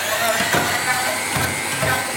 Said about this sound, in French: Je vais mettre l'ail, 2 cuillères de citron. Donc 2 cuillères de jus de citron. Ok. Une petite pincée de sel et tu vas commencer à mixer.